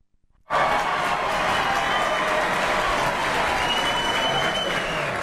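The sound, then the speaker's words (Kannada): Applause from an audience bursts out abruptly after a brief quiet and holds as steady, dense clapping, with a faint whistle partway through. “ಶಿಳ್ಳೆ ಚಪ್ಪಾಳೆ ಎಲ್ಲ ಸಿಕ್ಕಿದ್ವಲ್ಲ”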